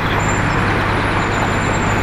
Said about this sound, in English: It's quite busy down here in this particular area. The buses, there's a big bus terminal here.